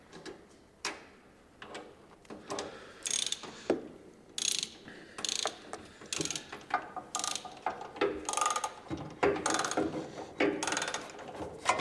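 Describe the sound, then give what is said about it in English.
A ratchet bolts up rear brake calipers in many quick bursts of sharp mechanical clicking. Each burst is separated by short pauses, moderately loud and without speech. “Insert the brake pads, slide on the calipers, not forgetting the Loctite, bolt them up and attach the brake lines.”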